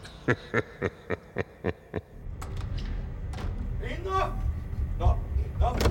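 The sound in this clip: A large cryotherapy unit throbs incessantly, opening with a run of seven evenly spaced pulses; then voices talk over a continuing low rumble.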